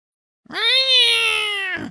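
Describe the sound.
A cat gives a single loud, drawn-out meow in a store checkout area. The tonal call holds steady for over a second before tailing off, heard alone without talk.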